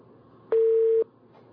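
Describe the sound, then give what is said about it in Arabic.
A phone call is cut off and a busy tone sounds, a single steady mid-pitched beep about half a second long over faint background hiss. “انقطع اتصال أم طارق”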